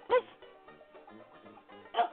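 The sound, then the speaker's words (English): Short, sharp dog barks, one loud bark at the start and another near the end, with quieter low murmuring sounds in between. “Just one bark for Apple Cheeks Alice?”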